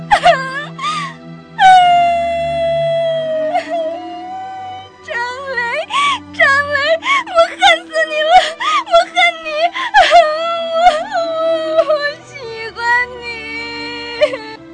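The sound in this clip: A man sobs loudly and uncontrollably after throwing himself onto a table, with a tremulous, wailing voice that breaks into uneven bursts. There are short pauses near the middle and toward the end, and a steady low tone sustains beneath.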